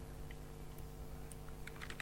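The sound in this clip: Typing on a computer keyboard while code is entered in a programming lesson: faint, scattered keystroke clicks that gather into a quicker cluster near the end, over a steady low hum.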